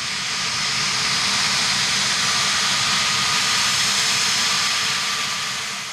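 A low aircraft passes over a back garden near a UK airport with a loud, steady jet roar that swells slightly toward the middle and eases off at the end.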